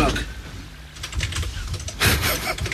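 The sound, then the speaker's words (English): Typing on a computer keyboard while trying to enter a web address: a faint, uneven patter of key clicks with denser bursts, under a man's talking. “I'm just trying to type in... Dead or alive quiz. Well, no, I'm trying to type in a URL, which may kind of help me out.”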